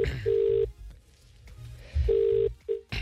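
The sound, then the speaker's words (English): Touch-tone beeps of a telephone number being dialed, a few short, steady tones in two clusters separated by a pause, over a faint low hum. “I am just dialing up the lovely Jackie O at the moment”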